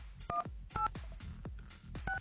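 Telephone keypad dialing tones: three short, faint dual-tone beeps spaced unevenly, with soft low thumps between them.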